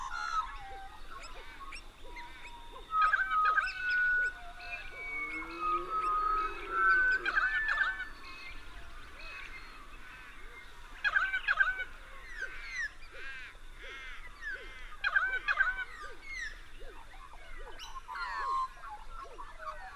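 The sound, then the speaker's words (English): A dawn chorus of many birds in eastern Australia: dense, overlapping calls, chirps and harsher cries over a constant faint hiss, swelling into several louder bursts of calling. “let's just stop for a minute and listen to a quintessential dawn chorus of eastern Australia.”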